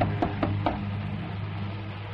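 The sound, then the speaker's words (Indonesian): Knocking on a door in a quiet house: three soft, dull taps in quick succession within the first second, over a steady low hum. “Dan saat itu kami berdua dikagetkan oleh suara ketukan di pintu.”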